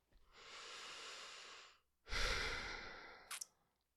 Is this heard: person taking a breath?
yes